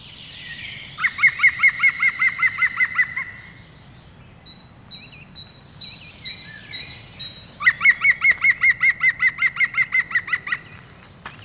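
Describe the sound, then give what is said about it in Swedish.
Recorded call of a green woodpecker: two bouts of rapid, ringing laughing notes, each a long, even-paced series of loud repeated calls, with fainter bird chirps between them over a low background rumble. “jag tror att vi har även ett bandat gröngölingsrop som vi kan lyssna på. Så får ni höra hur det låter.”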